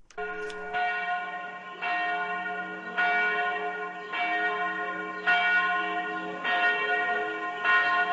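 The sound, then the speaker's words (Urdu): Traditional church bells ring at the Church of the Nativity in Bethlehem during Christmas celebrations, with many resonant, ringing strikes in a slow, steady rhythm, each tone sustaining and overlapping the next. “Church of the نیٹیوٹی میں روایتی گھنٹیاں بجائی گئیں۔”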